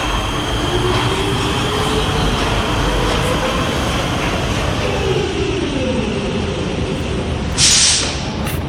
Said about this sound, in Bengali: এদিকে ময়দান থেকে ক্লান্ত পায়ে মেট্রো স্টেশনে ঢুকে মেট্রোতে উঠে পড়ল অদিতি।